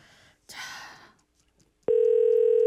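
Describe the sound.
A telephone dial tone heard while placing a call: a brief burst of breathy noise, then a quiet pause, then a loud, steady, unbroken tone that holds to the end.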